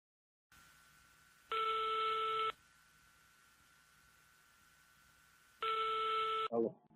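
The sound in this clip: Telephone ringback during a call to a car seller: two ring bursts of about a second each sound over a faint steady line tone, with a click at the end.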